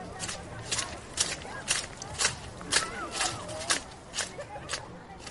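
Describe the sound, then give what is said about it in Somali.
Footsteps and children's voices on a school playground, with many steady, rhythmic footfalls and high chattering voices mixed throughout. “Waxaan ku suganahay barxadda dugsiga ee lagu ciyaaro. Waxaan jeedaa wiilal iyo gabdho.”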